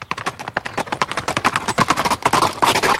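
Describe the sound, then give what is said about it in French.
Hoofbeats of two horses setting off at a brisk pace on a ride through a park, a rapid, dense clatter of many clip-clopping steps that keeps up steadily throughout. “le jeune homme chercha les flancs de sa monture et les deux chevaux partirent d'un train assez vif.”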